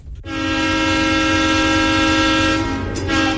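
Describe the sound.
A train on rails sounds a loud, sustained, steady horn-like tone that holds for about three seconds with a deep rumble underneath.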